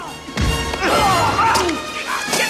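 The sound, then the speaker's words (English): A hard wooden thwack as a plank is swung over a man's head in a brawl, one sharp hit followed by strained grunts and raised voices. “Phil whacks the other over the head with a plank as he tries to tackle Duke.”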